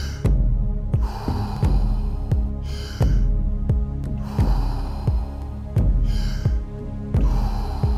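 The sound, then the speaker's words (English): Deep circular breathing, inhaling and exhaling with no pause between breaths, forms airy swells that repeat over a low droning hum and a steady soft pulse. “No pause between inhalation and exhalation. In with peace, out with stress.”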